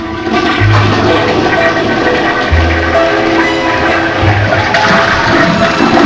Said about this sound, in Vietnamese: Kéo cần gạt, nước xối ào ào